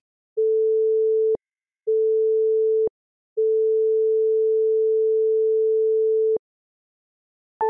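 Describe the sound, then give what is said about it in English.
Steady pure sine tones at one pitch, played for an audio illusion demonstration: two tones of about a second each, separated by short gaps, then a much longer sustained tone, followed by a brief higher chord at the end. “Audio illusions like this one are great ways to learn about how our brain processes sound.”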